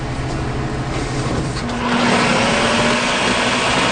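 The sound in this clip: A food processor slices food in a community kitchen with a loud, continuous motor whir. A steady whine settles in partway through and holds to the end.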